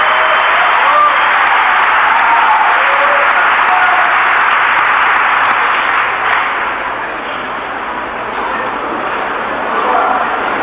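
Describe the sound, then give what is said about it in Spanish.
Sustained applause from the audience at a session of Argentina's Legislative Assembly before the president's address, a dense, even wash of clapping that eases slightly partway through and then swells again. “Un cerrado aplauso para la presentación de Mauricio Macri.”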